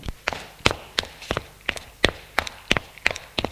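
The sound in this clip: Footsteps of a man climbing stairs as a chambermaid leads him to his room: a quick, even series of crisp taps, about three per second, steady and fairly loud, with no talk over them.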